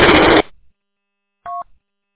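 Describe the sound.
A single short two-toned telephone dialing beep sounds after a brief burst of static-like noise and a pause of about a second.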